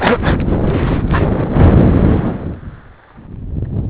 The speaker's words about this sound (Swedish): Ja, det är tämligen blåsigt måste jag säga.